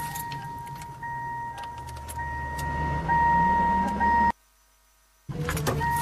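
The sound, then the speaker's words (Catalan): A truck reversing gives a steady motor rumble under a continuous high whine that grows slightly louder. The sound cuts off abruptly for about a second, then resumes. “Marxa atrás del camión.”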